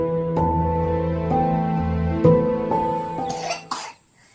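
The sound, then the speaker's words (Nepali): A child with a cold coughs in a few harsh, voiced bursts, fairly loud and heard alone, before the sound drops to silence. “कस्तो रुगाखोकी कम नभएको होला यसको”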